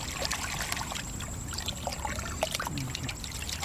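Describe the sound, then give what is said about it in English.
Water sloshes and trickles as muck is rinsed off a clod of marsh grass roots in a metal pail. The faint, steady wet splashing has small drips scattered throughout and no voices. “In a metal pail, he rinses muck off a clod of marsh grass roots”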